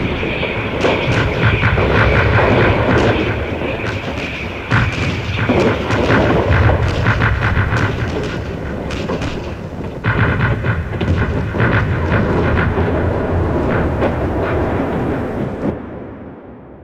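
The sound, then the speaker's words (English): Artillery barrage of high-explosive shells: a dense, loud, rolling rumble of overlapping blasts that carries on without a break, with many sharper impacts inside it, then thins out just before the end. “The noise is as much a weapon as the high explosive. I've seen men under a barrage like that curl up and weep like babies.”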